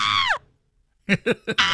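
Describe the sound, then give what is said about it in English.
A voice imitates screaming on a fast ride drop: one brief high shriek with bright harmonics that falls in pitch, then a near-silent gap, then a few short spoken syllables. “all you could hear was like, when it released, I started screaming.”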